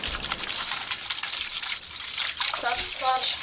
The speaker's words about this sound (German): Einfach ins kalte Nass eintauchen.